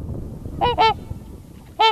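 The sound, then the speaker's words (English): Trumpeter swans call while roosting on water near ice edges at dawn, from a flock of about 200. There are loud, rich, nasal trumpet-like honks: two quick calls close together, a pause, then a third. “The trumpeter swan has this really rich trumpet-like call.”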